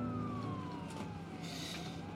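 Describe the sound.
A faint siren wails with a slowly falling pitch above a low, steady rumble, with no voices.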